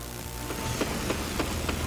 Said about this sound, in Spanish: este justamente es el sonido desde primera hora de la mañana, mientras que el IDU adelanta el desmonte del puente